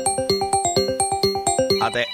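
A phone ringtone sounds for an incoming call: a fast, evenly spaced run of bright chiming electronic tones repeating a short pattern, loud and alone.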